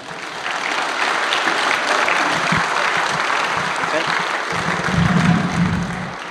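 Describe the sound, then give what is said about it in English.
Loud audience applause welcomes a Red Bull Air Race pilot to the stage at an evening event. The clapping is thick and continuous from start to finish, swelling slightly near the end. “Ladies and gentlemen, will you please put your hands together and join me in welcoming Matt Hall.”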